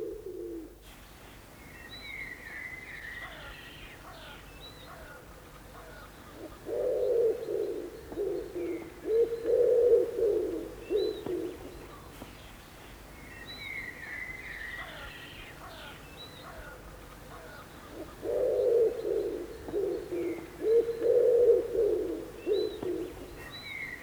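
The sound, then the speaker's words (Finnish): Common wood pigeon cooing, stressed on the second syllable: two bouts of low, soft, rhythmic hoots, each made of repeated phrases, with faint chirps of other birds between them. “Kun taas sepelkyyhkyn huuhu, huuhu, huuhu, paino toisella tavulla.”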